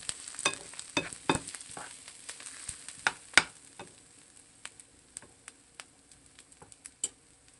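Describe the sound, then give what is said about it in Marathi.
Food sizzles in a pan as half a small spoonful of turmeric is stirred in. Many sharp clicks of the spoon against the pan sound over a soft steady fry, louder at first and lighter and quicker toward the end. “छोटा अर्धा चमचा हळद, mix करू।”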